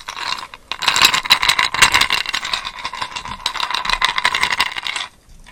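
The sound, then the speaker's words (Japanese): Ice cubes rattle and clink in a container during a late-night chat, with a dense, busy stream of many small clicks and scrapes that runs steadily for about five seconds and then stops abruptly. No talking is heard. “今日は氷持ってきたよ。”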